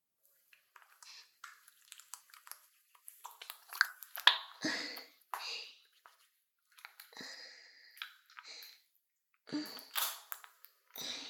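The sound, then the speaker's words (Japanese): A foot massage on the calf produces faint, intermittent squishy rubbing and soft tapping noises that come in scattered bursts with short pauses between them. “それでは、足のマッサージを始めていきますね。まずは、こちらの足のふくらはぎから。”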